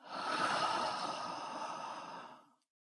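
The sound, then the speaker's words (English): A deep breath drawn in through the nose and let out through the mouth, heard as one long, even, breathy rush lasting a couple of seconds before cutting off, with no talking. “Let's draw a deep breath in through the nose and out from the mouth.”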